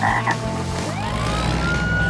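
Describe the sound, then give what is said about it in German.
A cartoon frog croaks loudly at the start, followed by a whistling tone that rises in pitch as it zooms past. The sound holds steady and loud throughout, with no speech. “Doch da sauste der Frosch bereits an ihnen vorbei.”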